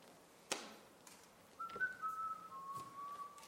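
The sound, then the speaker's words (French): A person whistles a soft, sustained high note that holds steady, then shifts to a slightly lower pitch and continues to the end, preceded by a brief sharp knock. “Ne siffle pas”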